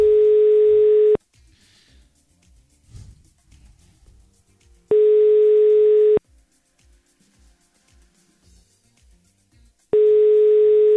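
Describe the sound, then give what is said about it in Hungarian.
Ringback tone sounds on a telephone as a radio station calls a listener. Three long, steady electronic tones each last just over a second and are separated by quiet gaps of several seconds. “Hívjuk a nap hallgatóját gyorsan.”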